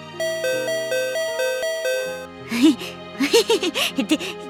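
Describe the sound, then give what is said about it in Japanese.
A doorbell gives a bright ding-dong chime of several stepped tones, then a voice speaks over the fading ring. “できたらもう一回ピンポンを。”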